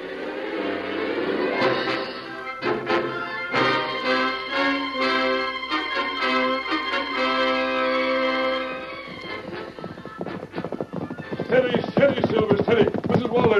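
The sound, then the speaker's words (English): Hoofbeats of the horse Silver galloping in a radio drama, a fast rattling clatter that follows a long stretch of music and grows louder toward the end. “Come on, Silver. Why, that horse is traveling like a prairie fire.”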